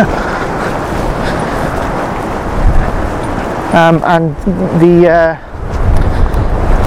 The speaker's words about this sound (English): The wind is literally trying to blow me over.